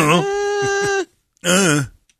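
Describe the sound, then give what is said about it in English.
A voiced groan that imitates a reluctant reply: two drawn-out, steady-pitched vocal groans, the first about a second long, then a pause and a shorter second groan. “It's become just a groan.”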